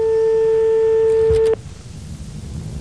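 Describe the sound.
A steady telephone tone with clear harmonics while a number in Paris is being dialed, cut short by a couple of sharp clicks that leave only low hiss.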